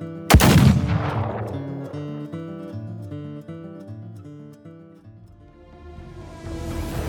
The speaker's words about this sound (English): the bullet catcher points the gun at the dying man's chest and squeezes the trigger.